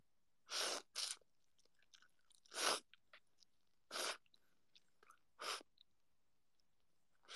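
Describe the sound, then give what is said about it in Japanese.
Someone slurps soba noodles: five short, hissing slurps spaced irregularly, with faint chewing clicks in between, quiet overall and with no talking. “そば食べながら。いただきます。いただきます！”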